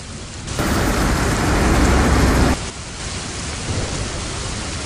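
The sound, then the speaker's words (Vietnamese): Heavy thunderstorm rain lashes a window: a loud, dense roar of downpour swells for a couple of seconds, then eases to a steadier, softer pour with a low rumble beneath. “Những giọt mưa giống như ngọn roi quật bùm vào cửa sổ. Cả thế giới đang bị cơn mưa tầm tã rung chuyển, giống như sắp sụp đổ vậy.”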